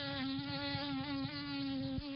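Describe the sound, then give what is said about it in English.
Buzzing wings of a nuisance mosquito, a species that does not carry human disease-causing parasites: a continuous high, thin whine with a slight wavering pitch and a brief dip near the end. “That's the sound of a nuisance mosquito, one that doesn't carry human disease-causing parasites.”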